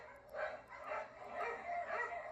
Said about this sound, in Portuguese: Na hora que você começa a ajeitar suas coisas para ir, os cachorros novamente se agitam um pouco.